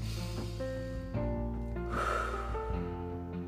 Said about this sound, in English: We take a couple deep breaths. And one deep breath,